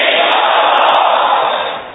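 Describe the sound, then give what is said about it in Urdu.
A large crowd at a weekly religious gathering loudly shouts a slogan in unison, a dense roaring mass of voices that holds steady and then fades toward the end. “آواز کیوں دب گئی آپ کی؟ ارے اور زور سے نعرہ لگاؤ”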